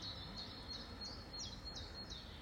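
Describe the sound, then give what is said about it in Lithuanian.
Birds chirp outdoors on a warm walk, a series of short, high, faint chirps repeating over a steady background hiss. “aš dabar vaikštau, yra šilta, paukščiai čiulba,”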